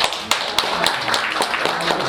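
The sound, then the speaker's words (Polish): Audience clapping at a village gathering honouring a village head: a moderate, steady patter of hands with several sharp, distinct claps rising above it at irregular moments. “Brawo jeszcze raz.”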